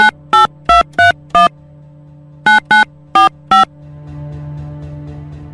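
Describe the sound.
Electronic telephone keypad beeps sound as a call is placed: nine short, loud tones of varying pitch, a quick run of five, a pause, then four more. A low, steady hum follows.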